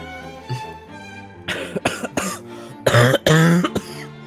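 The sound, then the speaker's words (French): A person coughs hard in a rapid run of harsh, explosive bursts, the later ones louder and longer, with no talking. “Tu te mets à tousser tellement fort, t'es obligé d'arrêter ta course quelques secondes”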